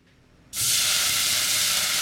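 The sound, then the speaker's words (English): Sizzling hiss as red organic wine is poured into a hot pan holding garlic and browned meat bits, bursting on suddenly and then holding as a loud, steady, bright hiss to the end, with no talking. “It's a Frey Natural Red Organic Wine. So I'm going to pour it in the pan, and then I'm going to be scraping, and we'll get those bits loosened”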